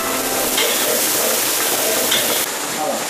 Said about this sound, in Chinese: 大勺的干辣椒粉在鱼肉刚刚熟透的时候下锅，